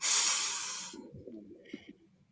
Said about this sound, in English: So just breathe in with us